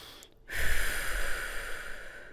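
A single long, deep breath after a brief quiet pause: a breathy, fairly loud rush lasting about two seconds, with no talking.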